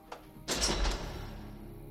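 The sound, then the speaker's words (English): A door at the entrance of an estate at night, pushed open: a faint click, then a brief scraping rush, fading into quiet background. “Peter stands at the entrance. He pushes the door open.”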